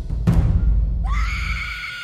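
A female ghost screams fiercely: a dull thud, then a high, piercing shriek that rises sharply at its onset and holds, strained and sustained, to the end.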